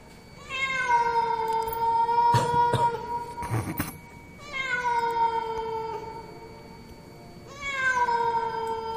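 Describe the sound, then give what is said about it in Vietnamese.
A cat meows three times in long, drawn-out wailing cries, each holding a fairly steady pitch before trailing off. A couple of sharp knocks sound between the first and second cries. “Ấy thế rồi có tiếng gì vang vọng, vang lên, nghe nó kinh lắm. Là tiếng con mèo nó kêu.”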